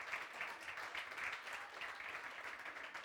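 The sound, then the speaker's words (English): Soft, steady applause from an audience welcoming visiting friends from Columbus, a faint continuous patter of many hands clapping throughout, with no talk over it. “We have like friends here from Columbus. Would you guys like just welcome, just give them”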